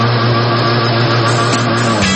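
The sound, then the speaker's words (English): An outboard boat motor drones steadily and loudly, a constant hum with a low, even tone and no clear change in pace. “Throttle up, open her up, and cruise through the waters.”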